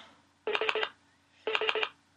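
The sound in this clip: Touch-tone dialing for a phone call: two short, separate bursts of several quick electronic tones in a row, clear and alone against quiet background hiss.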